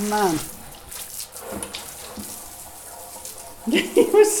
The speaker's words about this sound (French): Donc je profite du jour où l'eau arrive pour laver.